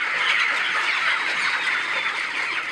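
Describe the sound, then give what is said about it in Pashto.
Many chickens cluck and chatter together on a poultry farm in Khost, a dense, continuous, fairly loud flock sound with no pauses and no people talking. “د کارډیپ مؤسسې په همکارۍ د چرګانو د روزنې فارم جوړ کړی”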